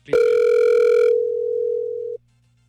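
A phone call ringing unanswered: one long, steady tone lasts about two seconds. It starts bright and buzzy, settles into a plain pure tone, then cuts off abruptly.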